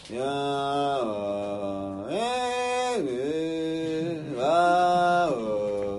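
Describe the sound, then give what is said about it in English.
A lone voice imitates a wordless, melodyless Hasidic song sung by teenagers in a dark room, holding long, steady tones that slide between a few pitches in slow, drawn-out phrases at a moderate volume. “the Slonim teenagers sit in this huge room in pitch dark, singing these songs that have no apparent melody at all. And they all know it. I mean, literally, the songs sound like this.”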